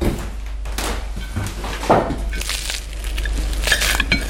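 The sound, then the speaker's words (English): Knife cutting into a freshly baked apple tart: crisp pastry crunches and clinks of utensil against dish come in a few irregular bursts over a steady low hum. “Okay, I'm cutting this tart now.”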